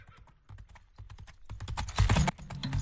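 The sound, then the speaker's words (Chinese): Horse hooves clip-clop outside a relay station, a run of many sharp, crisp knocks that start faint and grow louder and denser toward the end. “就听见驿站外传来脆响的马蹄，终于要出发啦！”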